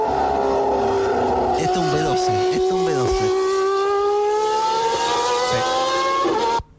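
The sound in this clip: A V12 car engine screams at high revs, its pitch climbing steadily through one long sustained pull before cutting off abruptly at the end.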